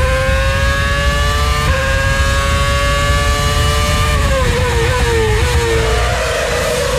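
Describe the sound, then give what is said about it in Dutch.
Formula 1 race cars at the 2010 Istanbul Grand Prix: a loud, continuous high-revving engine whine that holds its pitch for several seconds, then drops and wavers lower toward the end. “Formule 1. Flashback. Istanbul, Turkije. 2010. Nou, pak de afstandsbediening, zet hem harder.”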